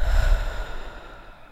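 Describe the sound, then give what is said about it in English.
A deep breath out, heard as a single breathy rush of air with a low rumble at the start, fading steadily over about a second and a half. “Why don't you take a deep breath with me in and out?”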